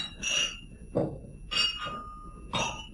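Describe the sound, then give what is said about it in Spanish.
Glass bottles clink against each other in four bright, ringing knocks at uneven intervals. Each knock is short and leaves a brief metallic-sounding ring over a faint background hiss. “Parece como si chocaran botellas entre sí. Y los vidrios.”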